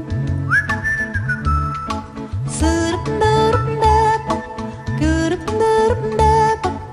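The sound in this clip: A person whistles a tune within a Polish pop song, and the clear, bright whistled melody rides over the band accompaniment. It is loud and continuous, with phrases that glide between notes.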